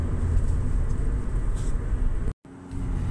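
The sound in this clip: Steady low engine rumble and road noise inside a moving car, with the droning hum cutting out briefly near the end before resuming.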